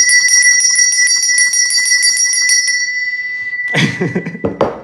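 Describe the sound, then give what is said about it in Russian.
A small handbell rings to mark the end of the school year. Many quick, evenly spaced strokes give a bright, high tone for about three seconds, then the ringing fades and louder rustling or knocking noises follow. “А можно позвонить в колокольчик? Да. Давай позвоним, чтобы у нас тоже был конец учебного года.”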